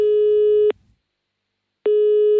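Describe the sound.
A telephone call tone sounds as a steady, mid-pitched electronic beep. One tone holds, cuts off into silence, then a second identical tone begins, as a call to a town hall is placed.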